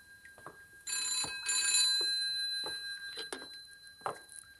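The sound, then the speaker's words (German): A telephone bell rings in one rattling burst of about a second, fairly faint, among scattered quiet knocks and shuffling noises. “von dem Gebimmel, da wurde ich wach. Es war das Telefon.”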